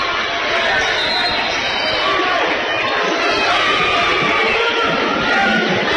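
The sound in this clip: Basketball tournament crowd getting fired up during a close game, a loud, sustained roar of voices and cheering that stays steady throughout.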